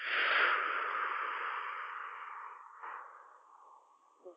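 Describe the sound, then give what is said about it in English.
A deep breath in and out during a guided relaxation session: a long, soft, breathy hiss that tapers off slowly over several seconds, with no talking. “take a deep cleansing breath in with me, please. And a deep breath out.”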